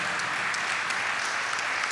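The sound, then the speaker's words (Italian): Applause from a conference audience for the speakers at the University of Genoa: an even, continuous patter of many hands clapping. “Chiedo di fare un applauso ai nostri relatori”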